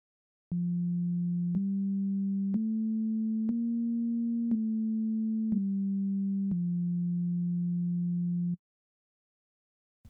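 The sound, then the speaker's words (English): Pure sine-wave tones play seven steady notes that step up in pitch over the first four and back down over the last three. Each tone is clean and sustained, and the final note is held longest before silence. “what you were just hearing is one of the simplest kinds of sounds possible. That's just a plain sine wave.”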